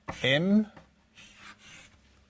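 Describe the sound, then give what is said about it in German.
The formula E = mc² is written out by hand in two short, scratchy bursts of strokes, following a brief spoken phrase. “Ich schreibe es mal so hin. Wir werden das nachher noch brauchen. E gleich m mal c Quadrat.”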